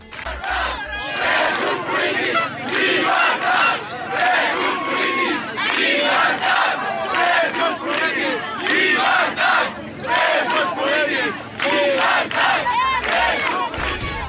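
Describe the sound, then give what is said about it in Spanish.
A protest crowd in Catalonia chants a slogan demanding freedom for political prisoners: many voices shout together in loud, rhythmic bursts that repeat with brief dips between phrases. “Durante las protestas se escuchó la consigna: presos políticos, libertad.”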